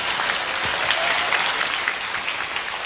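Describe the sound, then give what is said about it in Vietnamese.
Steady audience applause at a Zen music evening, dense and continuous clapping at an even, fairly loud level throughout. “Mọi người vẫn vỗ tay kìa này.”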